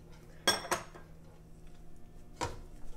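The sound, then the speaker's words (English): Faint clinks come from a nonstick pan being handled while rice is cooked. Two quick metallic knocks land close together, then a third follows after a pause, each short against a quiet background. “This is a Teflon pan, but it's not as good as this one. And not Teflon, but nonstick.”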